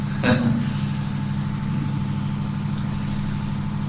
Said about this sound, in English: last year we felt the generator is... Yes, I forgot that, but it's actually quite noisy.